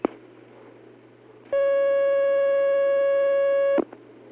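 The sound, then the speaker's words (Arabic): A telephone line tone on an incoming call: a single steady electronic beep held for about two seconds. Faint clicks come before and after it. “معنا مكالمة ثانية”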